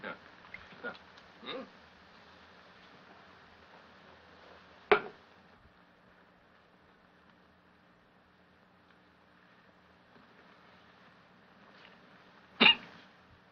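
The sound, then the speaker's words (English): Hiccups from a man trying to cure them with champagne: a few abrupt, sharp gulping jolts spread unevenly across long quiet stretches, the two loudest far apart. “to get rid of his hiccups, he pours himself some more champagne.”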